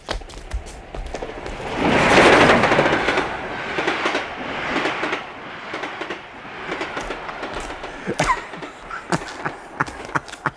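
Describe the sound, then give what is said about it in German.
A special train passing, its broad rumble swelling to a peak early on, then easing into steady rolling noise with sharp rattling clicks from the wheels and cars. “Ich wette, da kommt Moriartys Sonderzug. Rasch, hinter die Tafel dort.”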